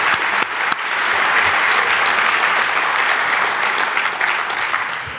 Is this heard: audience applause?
yes